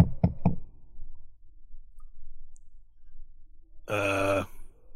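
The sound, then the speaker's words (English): Slight knocking at a door: three soft, quick, low knocks in a row, then quiet. Near the end comes a brief groan-like vocal sound. “There's a slight knocking at the door.”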